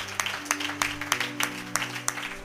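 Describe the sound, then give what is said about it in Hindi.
A church audience applauds for the Lord during a service, steady rhythmic clapping with sharp regular peaks over a sustained tonal drone, moderately quiet overall. “क्या हम प्रभु के लिए एक एक बार ताली बजा सकते हैं”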